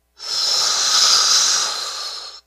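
A single deep breath drawn in through the mouth, a loud, steady, airy rush that lasts about two seconds and then cuts off, with no talking.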